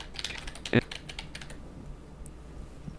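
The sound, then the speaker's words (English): Typing on a computer keyboard during screen reader use: a quick run of light, crisp key clicks fills the first half, the clearest near the middle, then the tapping stops and only faint background noise remains. “And I'm just going to type put cake in oven.”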